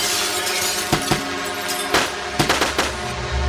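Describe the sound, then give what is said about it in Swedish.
Glass smashing as a drone swarm crashes into a public swimming baths and detonates, with a series of sharp, bright cracks and bursts over a steady, dense background roar. “Men sen hör du ljudet. Du kastar dig ner i vattnet just innan drönarsvärmen krossar glaset”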